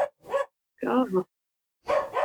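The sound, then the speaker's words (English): A small white dog yaps faintly several times in three short bursts separated by pauses. “That's a dog. Yeah, I've got a small white dog called Titan.”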